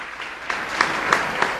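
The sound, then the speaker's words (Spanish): Applause from a church audience for the women present, a brief, fairly loud burst of clapping in which a few sharper individual claps stand out from the steady wash. “pueden sentarse, un aplauso grande.”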